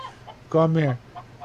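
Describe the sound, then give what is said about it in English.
A chicken gives a single short, harmonic cluck, rising briefly out of faint background noise. “Come here, little chicken.”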